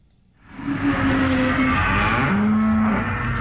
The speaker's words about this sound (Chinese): 走进河北天河肉牛种业有限公司的犊牛舍，记者远远就看到一头黄白相间的牛犊正在低头咀嚼草料。